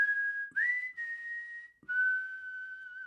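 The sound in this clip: A man whistles in a radio drama, holding long, steady, fairly high notes broken by two brief pauses, the middle note slightly higher than the others.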